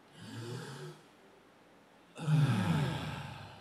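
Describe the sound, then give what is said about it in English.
One person takes a soft deep breath in, holds it for about a second of near silence, then releases a longer, louder, sigh-like exhale through the mouth. “We're going to take a deep breath in, hold for a moment, and then exhale.”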